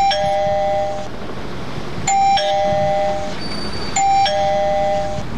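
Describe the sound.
A doorbell rings three times at regular intervals of about two seconds, each ring a loud two-tone electronic chime that rings out briefly over faint background noise.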